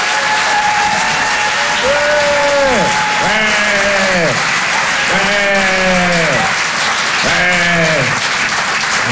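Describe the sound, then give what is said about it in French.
An audience at a live stand-up comedy show in Paris applauds and cheers loudly. Continuous dense clapping runs throughout, with several drawn-out vocal cheers rising above it. “Et je vous demande de faire un maximum de bruit et de l'encourager très chaleureusement.”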